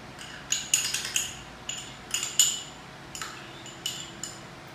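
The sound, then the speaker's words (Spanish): Spoon clinks against a mixing bowl while sour cream is scooped in: many light, irregular metallic taps and scrapes, fairly faint, with no talk. “Y vamos a hacer el sour tenemos un mixing Usted puede usar un envase que usted quiera, que usted desee en su casa. Echamos el sour cream.”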